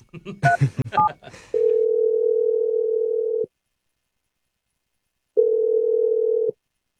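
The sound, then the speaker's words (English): A telephone line tone sounds as a number is called: two long, steady, mid-pitched tones separated by a silent pause, following a brief burst of voices at the start. “I'm going to dial her number right now. Here we go.”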